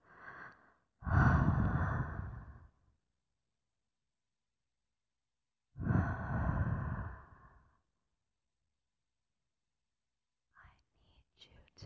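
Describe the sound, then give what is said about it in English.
Hot, close breathing into an ear, intimate and airy: a short breath, then two long, heavy exhalations separated by silence, and faint breathy rustles at the end. “obviously I have to breathe into it, my hot breath”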